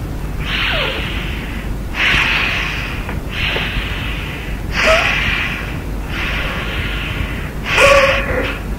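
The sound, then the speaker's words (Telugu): Six long breaths are drawn and released through one nostril, the other pressed shut, as a breathing exercise. Each is an airy hiss at a slow, even rhythm, with no talk. “ఒక ముక్కు మూసేయండి ఈ వేలుతో, బట్టల వేలు. రెండవ ముక్కుతో గాలి ఊరికే శ్వాసను లంప పొడుగ్గా పీల్చి వదిలిపెట్టాలి.”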